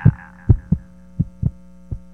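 Heartbeat sound effect of deep, soft thumps in lub-dub pairs at a steady, slow rhythm over a constant low hum, with no voices.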